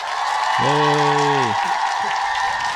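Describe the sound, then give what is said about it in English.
Audience applause greets an introduced performer, a steady wash of clapping with a brief sustained vocal cry rising over it early on. “Put your hands together for the one, the only... Jesus.”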